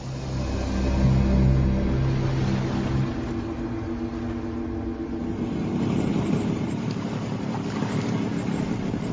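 Wind and water rush steadily around a small boat far out at sea, 19 km from shore, a low droning hum sitting under the noise for the first few seconds before the surf and wind carry on alone.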